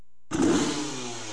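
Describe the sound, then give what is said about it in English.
A 250cc Kawasaki dirt bike engine bursts into a loud, buzzy rev after a short silence, then holds a steady rough roar. “It was a 250cc Kawasaki dirt bike sitting in the garage.”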